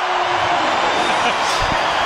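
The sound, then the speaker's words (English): Rugby stadium crowd in full voice at a match involving Italy, a dense continuous roar of cheering with a voice speaking over it throughout. “Well, the crowd in full voice as the precautions continuing to be taken with Tomasi Allen.”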